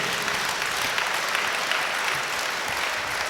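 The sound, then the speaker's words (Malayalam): An audience claps after a testimony of a healing miracle. The clapping is a continuous, dense patter that holds a steady level throughout. “കൈയടിച്ചേ.”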